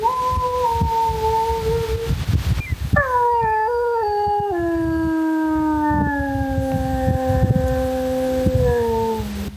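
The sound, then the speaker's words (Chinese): Wolves howl in a field recording. A long sustained howl is followed by several overlapping howls that hold long notes and slide gradually lower in pitch over a low, rough background rumble. “这就是狼的叫声哈。 对。 这也是你们给录下来的。”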